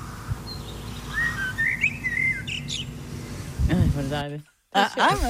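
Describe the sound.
A blackbird whistles short fluting phrases that copy a pop song melody, sung alone over faint background hiss. People then start talking.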